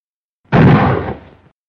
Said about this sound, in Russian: Громкий и резкий выстрел из винтовки с металлическим стоном поврежденной мишени решительно разорвал в клочья почудившийся мир и покой.